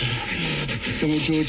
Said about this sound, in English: That was a knife!